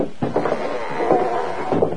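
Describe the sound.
A door creaks open in a drawn-out, wavering squeak lasting about two seconds, moderately loud, with a few soft knocks and no voices.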